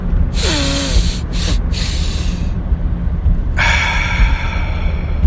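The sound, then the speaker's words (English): A deep breath is drawn in and then exhaled through the mouth, heard as two long, loud, rushing breathy hisses separated by a brief pause. “One more last deep breath. Really make it hurt. Take it all in. Make it hurt, and then exhale through the mouth.”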